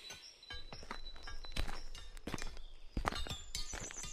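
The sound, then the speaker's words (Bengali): Footsteps coming up from behind across a blacksmith's forge floor strewn with scraps of iron and wood. Many irregular, crisp thuds and scuffs follow one another at a quick pace, moderately loud throughout. “এমন সময় হঠাৎ করে পিছনে আচম্বিতে পায়ের শব্দ শুনতে পেলাম।”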